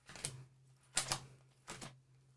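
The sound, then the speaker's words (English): Playing cards printed with celebrities are dealt onto a table, giving three faint, separate flicking slaps spaced out over a couple of seconds. “I've got a whole bunch of cards in my hand here with different celebrities on. So I'm going to start dealing them onto the table.”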